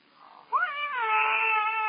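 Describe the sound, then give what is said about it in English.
A cat lets out a long, loud caterwauling yowl in a house crowded with dozens of mangy stray cats. The wail swells abruptly after a faint murmur and holds a strained, harmonic pitch to the end. “How many cats have you got in here? There were dozens of them.”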